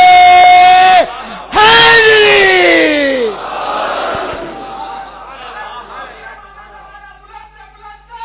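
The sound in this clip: At a religious gathering, a single voice shouts a call and a crowd answers with a massed, loud slogan chant. The chant rises to a roar, then fades into scattered voices and murmur.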